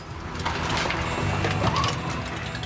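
A gold wash plant machine runs with a steady, dense mechanical rumble, whirring and rattling at an even level throughout, and no voices.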